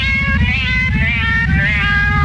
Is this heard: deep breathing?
no